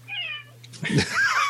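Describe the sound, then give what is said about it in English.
A friendly pet cat meows twice: first a thin, wavering call, then a louder, rougher meow. “This is going to add a lot to the podcast. Don't worry about that cat one bit.”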